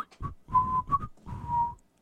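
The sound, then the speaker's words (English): A person whistles to stand in for a tortoise whistling in a story: four clear, fairly high notes, short then longer, with a brief gap between each. “the tortoise looked at him, and the tortoise began to whistle again.”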